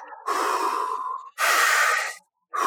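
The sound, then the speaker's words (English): Rhythmic breathing through the mouth, demonstrated in a guided breathwork exercise: two long, loud, airy breaths with a brief gap between them, and a third just beginning, with no pause held at the top or bottom. “So you're not going to hold at the top or bottom. It's just going to be a rhythmic breath, like”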